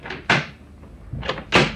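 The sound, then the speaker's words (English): A door being unlocked from inside a bar: a few sharp, clacking latch and bolt sounds, one loud knock-like clack early on, then two more clicks close together near the end. “Oh, just a moment, I'll unlock the door.”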